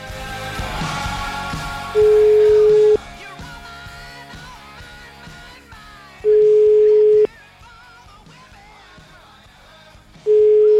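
Telephone ringback tone while placing a call: two steady, loud one-second beeps about four seconds apart, with a third starting at the end, over a quieter, busy background of other sound.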